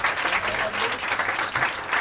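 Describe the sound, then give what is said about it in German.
Audience applause for a thank-you, a dense, steady wash of many hands clapping that stays at an even level throughout. “immer für uns da ist, ein riesen Applaus.”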